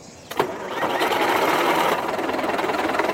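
A tractor engine is started by its owner: a sharp click at the start, then the engine catches and settles into a loud, steady, rapid clatter that continues to the end.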